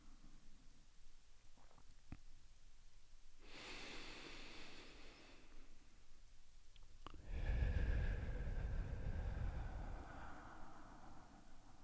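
Deep breathing during a meditation: two long, soft, airy breaths, the second louder and fuller than the first, with quiet stillness around them.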